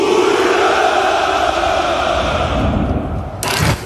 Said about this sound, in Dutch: De jaarlijkse hoera voor de overwinning in de Tweede Wereldoorlog klinkt dit jaar toch net iets minder overtuigend.